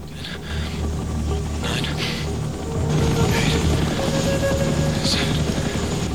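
A helicopter in a film scene gives a steady low rotor drone that runs without a break, growing slightly louder partway through.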